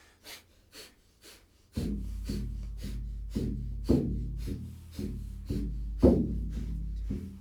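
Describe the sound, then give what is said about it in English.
Rapid, rhythmic breathing through the nose as a paced breathing exercise: a few faint puffs, then a louder, steady run of many sharp, evenly timed breaths with a breathy low rumble beneath. “You want to get a good pace going. You want it to be rhythmic. You want the navel to pump. Good. Now we close the mouth and transfer the breath to the nose.”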